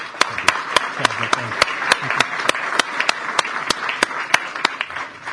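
An audience applauds to welcome Colombia's Minister of National Defense: a steady wash of clapping with sharp individual claps standing out at an even, regular pace, continuing for several seconds.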